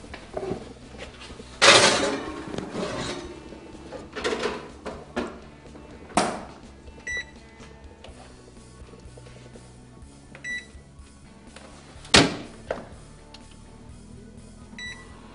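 A dish is put into a kitchen oven where lamb has been cooking: a few sharp clattering knocks and scrapes of the door and dish, plus several short, high electronic beeps scattered between them.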